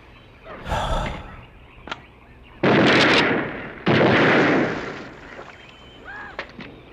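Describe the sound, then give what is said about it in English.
Gunfire in a film scene where a man shoots an alligator on an open lake: a softer blast comes first, then two loud, sustained booming bursts follow one after the other and fade out. “Ooh, he just shot an alligator and blew it away.”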